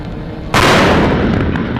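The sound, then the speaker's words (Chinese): A single loud artillery blast from an army brigade's fire unit during a live-fire drill with multiple ammunition types, hitting suddenly about half a second in and rolling on as a heavy, sustained roar to the end. “陆军第72集团军某旅组织火力分队开展多弹种全流程实兵实弹射击演练，各班组迅速装填弹药，标定参数，瞄准激发”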